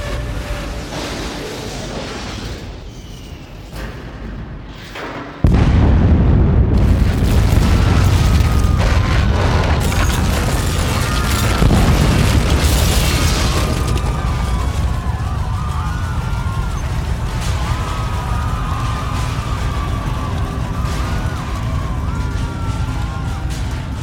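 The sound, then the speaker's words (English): Missile impact explosion on a base struck by cruise missiles: a low rumble gives way to a sudden heavy boom, then a sustained loud roar fills the rest. “Sir, we need to brace ourselves for impact. Like now. No time. If we get hit, so be it.”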